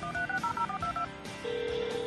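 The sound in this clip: Telephone keypad dialing tones: a quick run of short two-note beeps, about eight or nine in a row, followed by a single steady tone that holds to the end.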